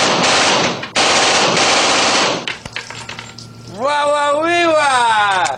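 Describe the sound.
Rapid automatic gunfire from a gun crackles in loud, dense bursts for a couple of seconds, then stops and gives way to a sliding, tonal voice-like sound.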